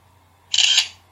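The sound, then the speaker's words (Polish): A single camera shutter sound as a photo is taken by a camera struggling to focus: one crisp, hissy high-pitched burst lasting well under half a second, alone over a faint low hum. “Wciskam te. Wykonywanie zdjęcia. No jak gdyby nie mógł nabrać ostrości, tak się zachowuje.”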